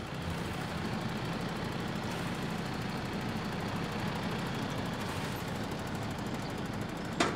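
Quiet, steady engine running of a vehicle in reverse gear, a low continuous rumble with even loudness, ending with one brief sharp knock.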